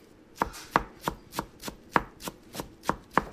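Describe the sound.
A chef chops herbs for a chicken marinade in a Beirut restaurant kitchen: ten crisp, evenly spaced knife strikes land on a board in a steady rhythm, with no voices.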